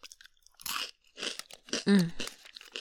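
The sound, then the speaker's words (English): Crunchy snacks being chewed, heard as many crisp crunching bursts in an irregular rhythm with short quiet gaps between bites. “Eating these delicious snackies.”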